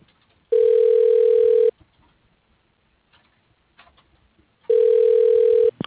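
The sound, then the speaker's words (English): Telephone tones play while a call is transferred to a business extension: two long, steady, mid-pitched beeps separated by a few seconds of near-silence. “To listen to this message. Your call is being transferred.”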